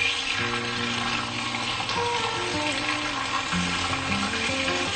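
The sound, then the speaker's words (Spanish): Onion, chili pepper and tomato sauté in a pan with a steady, dense sizzle that holds at an even level throughout, with no talking over it. “la cebolla, el ají y el tomate. Lo ponemos a sofreír, lo movemos un poco.”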